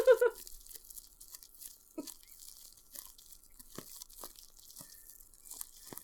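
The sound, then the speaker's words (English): Bread torn and eaten close up for ASMR: a sharp tearing crunch at the start, then many soft, crisp crackles and chewing crunches at an irregular pace over quiet background. “Did you specifically bring this bread so you could do some ASMR?”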